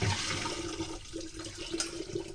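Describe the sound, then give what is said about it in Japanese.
Water pours over rice in a colander stacked inside a bowl, a steady rushing, splashing wash that runs the full length with no pauses. “こうザルとボウルを重ねてお水を注いで、 まずは一回きれいなお水でお米を浸してからすぐに捨てちゃいます。”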